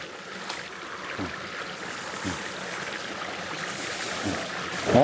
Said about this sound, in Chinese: 山林间有着很多小溪和清泉。